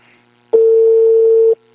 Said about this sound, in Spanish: Ahí está, le estoy llamando ahorita, ¿eh? Por el otro lado.